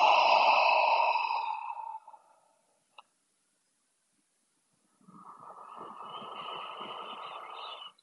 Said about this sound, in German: Atme durch die Nase ein und durch den leicht geöffneten Mund wieder aus.